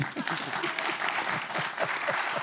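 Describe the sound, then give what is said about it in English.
Audience applause at a university homecoming event, a dense, continuous patter of many hands clapping at once, moderately loud and sustained throughout without a break. “by a show of applause, how many people, this is incredibly controversial, are in favor of college education?”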